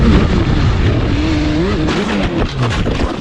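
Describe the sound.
Loud, sustained engine roar of a luxury motorcycle entering a bend fast on a city street, its tone wavering up and down throughout amid dense road noise.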